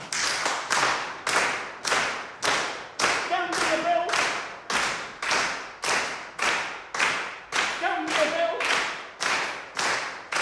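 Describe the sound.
A body-percussion lesson sets a group clapping hands and stamping feet to a steady, even beat, many claps in a row with voices calling out briefly.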